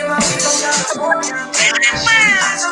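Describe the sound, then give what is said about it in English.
A cat meows along to a pop song, its drawn-out, wavering cries blending with the loud music throughout. “And a hilarious cat. We've played this cat before, but never with this combo.”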